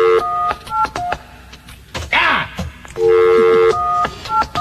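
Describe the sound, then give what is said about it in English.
Touch-tone dialing of a telephone during a radio cash-call contest: a series of short, steady electronic DTMF beeps. Some beeps are clipped and some are held longer. Other brief rustling sounds fall between them. “It's the pressure of having you watch me dial”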